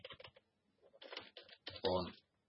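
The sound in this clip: Typing code on a computer keyboard: faint bursts of rapid key clicks arriving in uneven clusters separated by short pauses.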